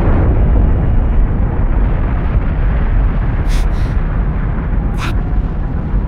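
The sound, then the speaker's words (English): A missile explosion rolls out as a loud, sustained rumbling roar with broad noise throughout and a few brief, sharp crackling bursts on top. “That's a missile. This is real. Oh God, it's real. Seek shelter immediately.”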